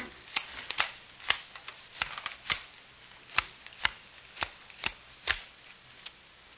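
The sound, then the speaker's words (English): Playing cards shuffled and dealt for a poker game: many crisp snapping flicks and riffles at an uneven rhythm, moderately loud and alone, with no voices. “Come on, sit down. I'll deal you some poker.”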